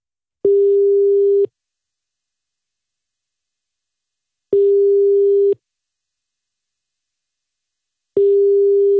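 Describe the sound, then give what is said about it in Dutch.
Ringing tone of an outgoing telephone call sounds three times, each a steady mid-pitched beep lasting about a second, evenly spaced by longer silences, clean and alone. “En nu gaan we gewoon net zo lang bellen tot hij opneemt”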